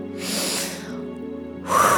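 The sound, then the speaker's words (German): A deep breath drawn in during a guided relaxation exercise, a soft airy rush that swells and fades, with another louder breathy rush starting near the end. “Und jetzt noch einmal tief einatmen.”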